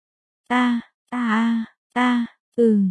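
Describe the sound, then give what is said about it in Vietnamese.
A woman moans four times in drawn-out, voiced, low-pitched groans separated by short pauses, the last one sliding slightly downward in pitch. “Một trận như có như không tiếng rên rỉ truyền vào tai.”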